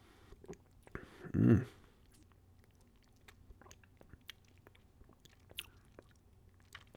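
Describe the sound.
A sip of a coconut-flavoured spirit, heard as one short, fairly loud slurp with a soft mouth sound that stands out against an otherwise quiet background.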